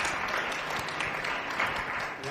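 Audience applause at a panel event, a dense, steady wash of many hands clapping that stays at an even, fairly loud level throughout with no clear gaps.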